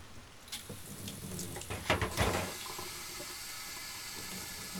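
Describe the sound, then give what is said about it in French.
Water runs from a tap into a small sink while paintbrushes are rinsed. A faint, steady hiss carries a few splashy bursts in the middle. “À côté, j'ai mon petit évier, ça permet de nettoyer mes pinceaux.”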